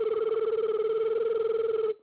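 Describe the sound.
A mobile phone rings with a steady electronic ringtone that pulses rapidly in a warbling rhythm. It plays alone at a moderate level, then cuts off abruptly at the end.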